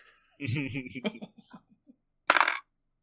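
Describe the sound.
A die rolled on a table during a tabletop game, a short clattering rattle that comes right after a stretch of talk.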